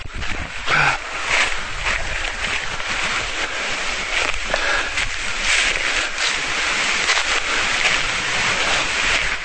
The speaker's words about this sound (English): Wind's picking up.